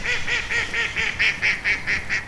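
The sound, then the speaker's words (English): Geese and ducks on the River Cam give a rapid, evenly spaced series of nasal honks and quacks, many calls in a steady rhythm with no talk. “To your left, sweeping lawns stretch down to the River Cam, home to geese, swans, and ducks,”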